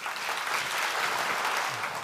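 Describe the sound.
Audience applause welcoming a guest speaker at a Christian talk, a brief, even burst of many hands clapping that stays steady for about two seconds.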